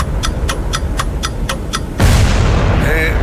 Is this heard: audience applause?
no